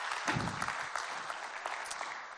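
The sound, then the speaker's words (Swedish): An audience at a Sunday gathering applauds the sound and video tech team with steady, fairly faint clapping from many hands that runs evenly throughout, with no voices standing out. “Kan vi ge dem en liten applåd?”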